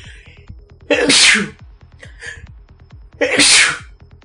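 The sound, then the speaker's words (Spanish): Two loud, explosive sneezes from a person, spaced a couple of seconds apart, each a sharp burst over a faint, steady ticking background. “Estornudé, ni modo, tenía que estornudar.”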